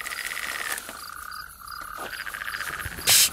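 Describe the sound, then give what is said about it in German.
Toads croaking by a lake at night: rapid, rattling trills that pulse steadily, drop away briefly mid-clip, then resume, ending with a short, loud, hissing burst. “Die Kröten haben aufgehört, weil da hinten...”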